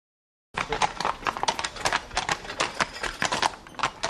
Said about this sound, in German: Das ist Weimarer Pflaster. Kein Ackergaul zieht hier die historische Kutsche an den Sehenswürdigkeiten dieser Thüringer Stadt vorbei.